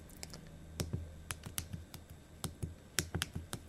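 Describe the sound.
Typing on a computer keyboard while writing out a short note: many quick, irregular plastic clicks with some sharper, louder keystrokes scattered through, alone without any voices.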